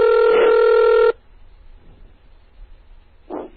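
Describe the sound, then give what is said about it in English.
A computer modem dials into a telephone through terminal software: a loud, steady electronic tone lasts about a second, then cuts off into near silence with one brief faint noise near the end. “Now this one should pick up. I dialed up into this phone using Hyper Terminal.”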